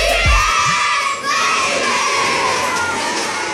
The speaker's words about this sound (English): More screaming, happy screaming, summer screaming, dollar small classic Frosty